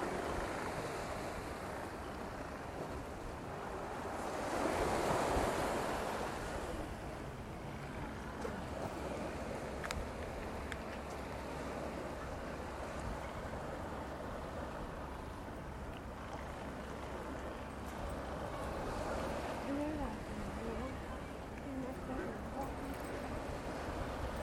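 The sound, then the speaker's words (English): Quiet harbour ambience at New Quay in West Wales, with boats moored and the tide out. A faint, steady wash of wind and water rises briefly into a louder swell early on, then settles back to a low murmur. “So just capturing the sounds of the harbour at the moment. Quite a sleepy little place. Got boats moored up. The tide's out.”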